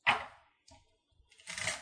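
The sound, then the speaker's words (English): Shuffling of quest, treasure and encounter card decks for a tabletop game: a few faint, papery riffling bursts with brief quiet gaps between them, no voices. “So we are shuffling up the quests, treasures, and encounter decks.”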